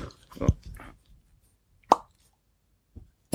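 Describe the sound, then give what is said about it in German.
A cork pops out of a bottle drawn with an unoiled Screwpull corkscrew: a few short, sharp plops separated by pauses, with a faint rustle of handling before the first. “Genau, ich habe den Screwpull nicht geölt. So. Verdammt. Warte mal, ich versuche mal einen Plop hinzukriegen.”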